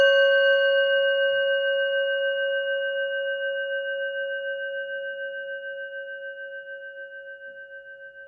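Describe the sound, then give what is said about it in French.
A small 230 g Tibetan singing bowl tuned to C sharp, struck with the leather side of its mallet, rings out in a long, pure, steady tone. It fades very slowly with a gentle wavering pulse throughout and no other sound. “Ce petit bol tibétain de 230 grammes a tout pour plaire. Il sonne en do dièse et démarre instantanément avec le bâton côté cuir. On l'écoute à la frappe.”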